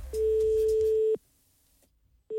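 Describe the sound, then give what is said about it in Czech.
Telephone ringing tone on a call to a hotel: one steady electronic tone of about a second, then a pause of near silence, then the next tone just beginning. “Tak archivní Mrázek Ústředna, když Patrik, pan Mrázek, volal do hotelu.”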